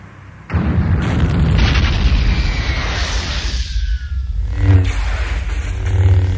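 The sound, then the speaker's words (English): A huge starship cruiser explodes: a sudden loud blast after a brief quiet opening swells into a long, roaring rumble with deep booms that continue for several seconds. “The cruiser started to explode.”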